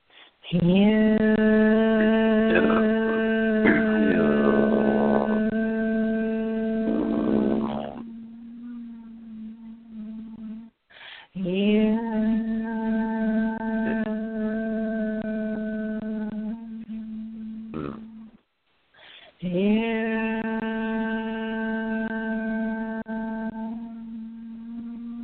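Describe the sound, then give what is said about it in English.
A single voice chants in three long, sustained phrases, each holding a steady tone with slight shifts, separated by brief pauses. “I just want everyone to listen to this and join in if you'd like, just to experience what it feels like to chant with you”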